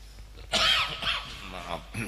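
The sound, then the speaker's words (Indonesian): One harsh cough bursts out sharply during a talk, then trails off into fainter breathy noise. “Ini ujian batuk ya.”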